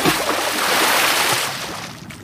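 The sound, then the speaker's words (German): A person plunging into dark water in a tunnel, heard as a loud, broad watery rush that starts strong and slowly fades over about two seconds. “Dort angekommen, verschwindet Toni im dunklen Nass.”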